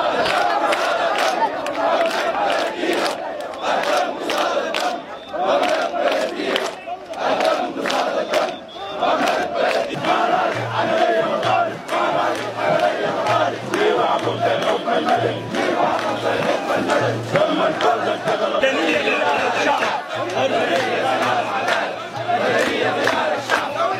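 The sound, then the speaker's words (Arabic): Protesters chanting slogans at a sit-in outside the army general command in Khartoum, marching after Friday prayers: a dense, loud crowd shouting rhythmically in unison, continuous throughout. “وسير آلاف المعتصمين موكبا ضخما عقب صلاة الجمعة أمام القيادة العامة مطالبين المجلس العسكري بتسليم السلطة لقيادة مدنية، ورددوا هتافات:”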